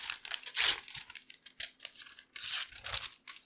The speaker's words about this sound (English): Why don't you unwrap one of these tastefully wrapped packages? Okay, here I go.